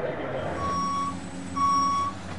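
Reversing beeps from construction equipment: two steady, high-pitched tones, each about half a second long, sound over a low engine rumble.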